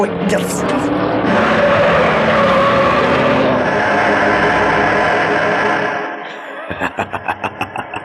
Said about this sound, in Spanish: La curva en S. Algo le pasa a la suspensión. No puedo controlarlo. Voy a salirme de la pista.